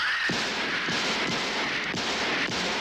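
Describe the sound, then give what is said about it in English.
Gunshots from a horror film trailer: several heavy, booming shots fire at a fairly steady pace over a dense, roaring background wash. “I shot him 6 times! I shot him in the heart!”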